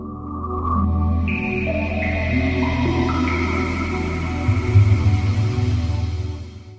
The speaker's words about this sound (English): That's the sound of a Sega Dreamcast starting up.